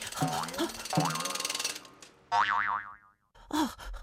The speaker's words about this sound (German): So kann ich noch wilder, noch höher und noch schneller auf mein tolles Trampolin springen.